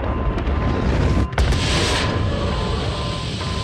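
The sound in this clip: A torpedo fired from a submarine in an audio drama, a heavy rumbling whoosh with a sharp break partway through, followed by a sustained roar that eases slightly toward the end.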